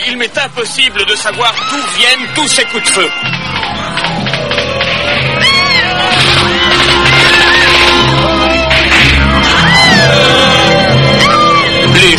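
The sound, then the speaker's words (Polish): Several people shout and yell, loud and sustained over a dense, busy backdrop, with rapid choppy bursts at the start before the din evens out. “Słychać krzyki. Ciekawe, kto tak krzyczy.”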